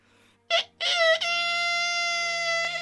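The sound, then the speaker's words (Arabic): A rooster crows with a brief sharp opening call, then a long, sustained, bright harmonic note that holds steady at a fairly loud level. “ارتفع صياح الديك المعهود:”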